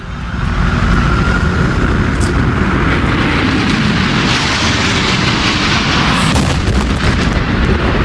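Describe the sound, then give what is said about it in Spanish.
A loud, sustained roaring rumble from an airliner striking the second of the Twin Towers in New York on 11 September 2001, dense and unbroken for several seconds, with no talk. “Este es el sonido del impacto en la segunda torre.”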